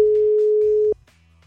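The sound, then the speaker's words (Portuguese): A single steady ringback tone plays as a radio host places a phone call in Brazil. It is a plain, even mid-pitched tone that holds for about a second and then cuts off, leaving a faint low background. “Vamos lá, vamos ligar pra alguém. Chamando, hein? Tomara que atenda.”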